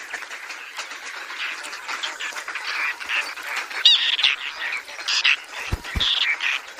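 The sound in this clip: Bird chicks calling at a large breeding colony in a Mediterranean coastal national park: a dense, continuous chatter of many overlapping high squawks and chirps, rising and falling in loudness, with no voices.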